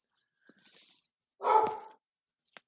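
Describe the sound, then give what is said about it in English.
A dog barking: one rough, fairly quiet bark stands out midway, with softer high sounds before it and a brief tick at the end. “Now your dog's barking.”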